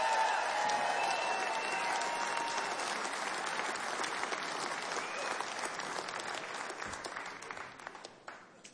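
Audience applause after a live music performance: dense, steady clapping mixed with crowd noise that holds strongly, then gradually thins and fades toward the end.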